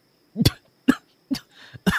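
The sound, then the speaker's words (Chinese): Harsh coughing fit from someone choking after nearly swallowing a bead. Several sharp, separate bursts come in quick, uneven succession, the first one doubled, alone without any talk. “一时呛住，便疯狂地咳嗽起来”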